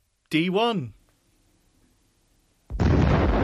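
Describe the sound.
Enemy shot in an electronic Battleship video game: a short, warbling electronic sound, a second of near silence, then a loud, sustained, hissing explosion blast.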